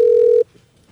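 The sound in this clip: A telephone tone before a voicemail greeting: one loud, steady mid-pitched beep lasting under half a second, then near silence.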